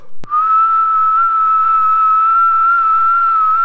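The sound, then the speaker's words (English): A low whistling call imitating a robin: one pure, steady whistled tone held for about three seconds, opened by a brief sharp click. “He made one of his low, whistling calls,”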